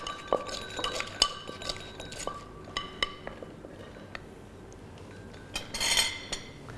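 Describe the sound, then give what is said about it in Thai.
Papaya salad being pounded in a mortar with dried shrimp and peanuts: a few sharp, irregular knocks and bright clinks, with a louder cluster of clatter near the end. “กุ้งแห้งและถั่วลิสงนะครับอันนี้คุณครูก็จะใส่ลงไปอย่างละ1ช้อนเพื่อเพิ่มสีสันและก็รสชาตินั่นเองครับเสร็จเรียบร้อยก็โขลกอีกครั้งนึงครับ”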